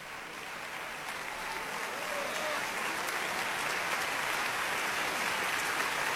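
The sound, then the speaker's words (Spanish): Applause from a concert audience in the concert hall of Centro Cultural Tlacna after a symphony orchestra performance, a dense, steady clatter of many hands that grows slightly louder and carries on throughout. “Usted puede escuchar el entusiasmo del público reunido el día de hoy en la sala de conciertos del Centro Cultural”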